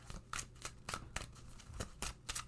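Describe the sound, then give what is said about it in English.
A tarot deck is shuffled and a card pulled, making a quiet run of soft papery flicks and snaps at an uneven rhythm. “All right, people, let's pull a card, shall we? Let's see what we need to know this week.”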